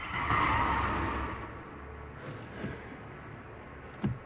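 Car tires screech as the car comes out of a tunnel and skids to a halt. A faint, broad hissing skid fills the opening second and a half, then fades to a low murmur, with a short sharp knock near the end.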